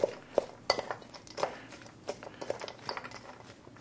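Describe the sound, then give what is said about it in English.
Stuffing ingredients being mixed together in a bowl produce many light, irregular clinks and taps of utensil against dish, with a few sharper knocks standing out over a soft background. “And again, mix it all up. We're making a wonderful stuffing here.”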